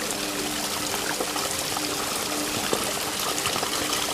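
Water from small waterfalls spills among ferns, trees and moss, a steady, loud rush and trickle with scattered splashes and drips popping through the continuous flow.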